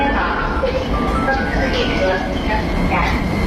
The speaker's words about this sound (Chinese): 宝贝，你看地铁来了，咱们一起排队上车喽！